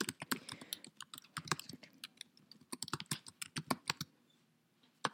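Keys rattle on a computer keyboard as a search is typed: many quick, uneven keystrokes, soft and alone, in clustered bursts that stop just before the end.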